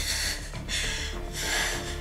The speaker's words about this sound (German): Können Sie sich aufsetzen? Okay. Und jetzt atmen. Ein.